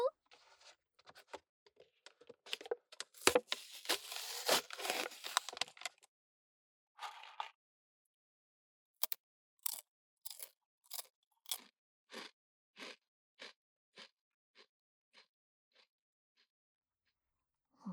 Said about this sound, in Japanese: こうやってちょっとずつ刻むようにカリカリと食べるのが好きなんだよね。音もいいし、長い時間食べられるし